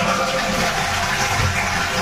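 A toilet flushes with a loud, steady rush of gushing water that fills the whole clip without a break, with no voices over it.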